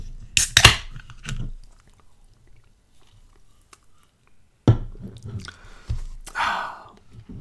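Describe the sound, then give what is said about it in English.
A can of pineapple mango seltzer cracks open with a sharp snap near the start. After a quiet pause come a few more clicks and a short burst of fizzy hiss. No one speaks. “Let me crack this seltzer.”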